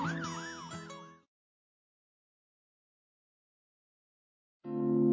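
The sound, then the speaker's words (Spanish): An ambulance siren wails, its pitch swooping up and down in rapid cycles for about a second before cutting off into silence; a different steady tone enters near the end. “Por ejemplo, reconocemos el sonido de una ambulancia y lo interpretamos como una situación de alarma.”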